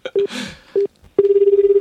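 Telephone dialing to call a friend: two short keypad beeps, then a steady run of rapid, evenly pulsing ringing tones that lasts to the end.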